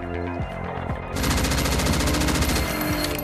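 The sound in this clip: Heavy gunfire during a firefight: a dense, loud, continuous rattle of rapid shots that grows fuller and more intense after about a second, layered over a low droning background.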